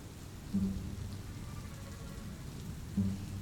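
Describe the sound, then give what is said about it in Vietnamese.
Heavy rain with gusting wind makes a faint, steady hiss throughout, broken by two soft, low thuds, with no voices. “Chỉ còn nghe thấy tiếng mưa hòa cùng với tiếng gió rít lên từng đợt”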